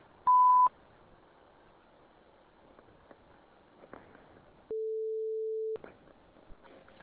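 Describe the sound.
An automated telephone line sounds a short, sharp prompt beep near the start. After a few seconds of faint hiss and small clicks, a longer, lower steady tone follows, then more faint noise.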